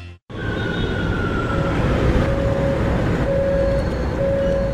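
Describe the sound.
A metro subway train gives a loud, steady rumbling roar with a sustained whining tone, starting abruptly after a brief gap and continuing evenly throughout.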